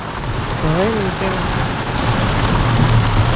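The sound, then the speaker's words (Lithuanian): Heavy rain downpour with a steady, dense hiss throughout, a brief voiced sound early on. “Oi, kokie liūtis. Bet griaustinės toli, žaibuoja toli. Bet liūtis garsas.”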